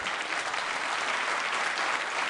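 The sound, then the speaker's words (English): An audience claps during a holiday-season gathering. The applause is dense and steady and holds at an even level for a couple of seconds, with no voices over it. “Oh, you're applauding the brandy.”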